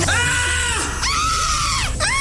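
Women screaming for joy: loud, high-pitched, layered screams in a few long back-to-back bursts. Each slides downward in pitch as it ends, and a fresh one starts at the close.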